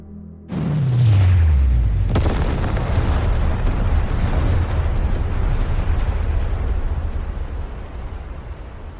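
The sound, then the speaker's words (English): Thermonuclear warheads detonating in a massive explosion: a sudden roaring blast with a descending low tone, a second sharp burst about two seconds in, then a long, loud, sustained rumble that slowly fades. “A simple one, directed to all the machines carrying thermonuclear warheads. Detonate.”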